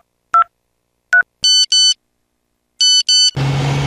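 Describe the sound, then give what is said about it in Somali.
A mobile phone's electronic tones: two short single tones, then two pairs of high beeps separated by a pause, followed by a steady engine rumble. “telefoonkiisa ayaa shanqaray”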